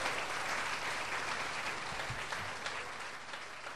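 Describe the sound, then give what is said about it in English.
An audience applauds the musicians during a church service before a sermon: soft, steady clapping with no single claps standing out, holding even and fairly faint for several seconds. “let's hear a hand for the musicians”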